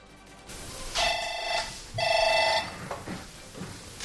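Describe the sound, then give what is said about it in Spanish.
A telephone rings at a naval anti-piracy headquarters in Rota with a call from a ship hijacked by pirates: two bright electronic trilling bursts with a short gap between them, followed by softer, scattered sounds. “Así suena el cerebro de la Operación Atalanta. En tierra desde Rota, esta es la llamada que hace un barco secuestrado por piratas.”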